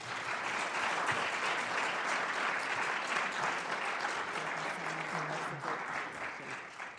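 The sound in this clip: An audience applauds steadily to welcome a speaker at a Graduate School of Public Health event on mental health, a dense, even clapping that holds throughout and thins slightly near the end.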